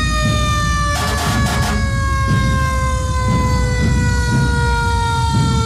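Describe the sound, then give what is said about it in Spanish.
A fire brigade ladder truck siren at a city festival in Santo Domingo, a loud continuous wail with a slowly sinking pitch over heavy low engine rumble. “vienen en su vehículo escalera, que de alguna forma es un vehículo representativo también para acá, Santo Domingo”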